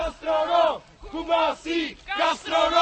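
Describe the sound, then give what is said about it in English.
A small group of demonstrators shouts slogans outside the Cuban embassy in Prague, demanding the release of political prisoners. Five loud, rhythmic chanted phrases come in an alternating call pattern, each a short burst separated by a brief pause. “That's the sound of a small group of demonstrators shouting slogans outside the Cuban embassy in Prague on Thursday, demanding the release of political prisoners on the island.”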